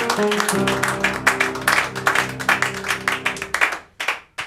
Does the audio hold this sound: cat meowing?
no